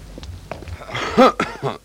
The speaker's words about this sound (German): Und auf einmal, da muss ich husten.